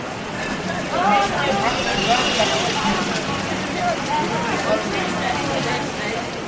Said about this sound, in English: It's a very modern city with a very urban soundscape.